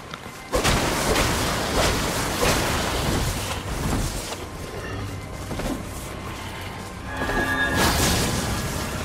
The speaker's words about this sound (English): Oh, it's an attack that shoots. Throws neat. A little, arc of holy damage.